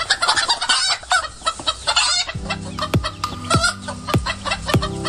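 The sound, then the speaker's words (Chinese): Three Gorges black chickens cluck and crow in a busy, overlapping chorus that is loudest in the first half. They are free-ranging hill birds with black feathers and red combs, raised in Wufeng, Hubei. “他们不是关在笼子里的速成者，而是满山跑的慢行者，一身黑羽红冠，活成了山的一部分。它叫三峡黑鸡”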